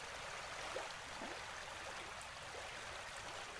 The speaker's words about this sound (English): You look to the left and to the right, trying to see where it begins or ends, but it's a futile search. For as far as you can see, the river flows.